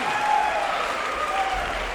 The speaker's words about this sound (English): Thank you for the nice round of applause.